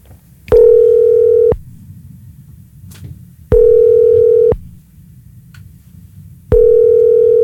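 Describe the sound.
Ringback tone of an outgoing telephone call placed to a listener during a radio phone-in: three steady, mid-pitched one-second tones evenly spaced about three seconds apart, the last cut short, over a faint low hum.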